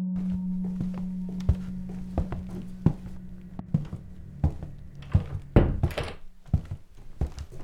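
A door opening for a woman of about 70: a run of clunks, knocks and rattles of uneven loudness, with the busiest burst near the end and a low steady hum underneath through most of it.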